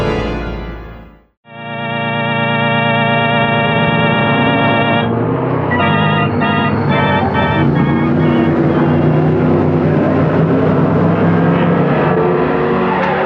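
A car's engine roars as it is driven at high speed through sharp curves and steep, dangerous slopes during a chase. After a brief dip at the start, a loud, sustained engine drone continues steadily with no talking.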